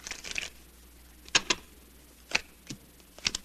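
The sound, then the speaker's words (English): Playing cards dealt for a hand of stud poker: a brief rustling flurry, then a few crisp, light snaps of cards landing at uneven intervals, with no talk. “Deal the cards.”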